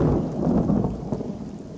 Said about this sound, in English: But during these storms, go ahead and turn my storm up just a little bit.